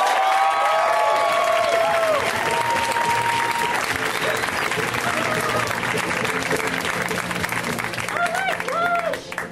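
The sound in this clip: A comedy club audience applauds and cheers for a comedian taking the stage, with loud, dense clapping, shouts and a few whistles that hold steady throughout and thin out only at the very end.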